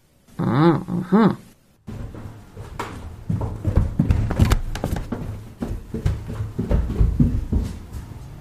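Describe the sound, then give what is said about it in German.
Footsteps descend steep stairs as many irregular thuds and taps. Two short voiced sounds come just before them, followed by a brief pause, and then the stepping continues unevenly. “Zuerst müssen wir die steilen Treppen runtersteigen. Aber keine Angst, ich halte dich fest.”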